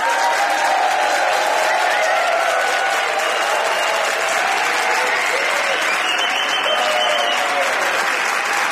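Audience applause at a comedians' panel discussion, loud, dense and steady clapping from a large crowd that runs unbroken from start to finish.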